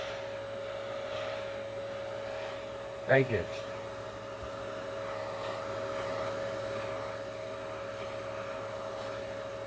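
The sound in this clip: A vacuum cleaner fitted with a crevice tool and giving weak suction runs with a steady whooshing drone and a constant humming tone. A voice speaks briefly over it.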